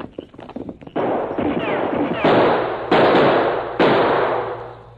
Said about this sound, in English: Someone shooting behind large rock on side of canyon.